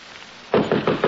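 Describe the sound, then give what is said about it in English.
Knocking on a bedroom door: four firm, evenly spaced wooden knocks, each short and resonant, set over a steady background hiss with no voices. “I was sleeping soundly when Mr. Humphrey knocked on my bedroom door.”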